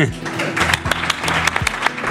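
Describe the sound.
Audience applause at a football player's farewell: a dense, continuous patter of many hands clapping, with a voice talking over it.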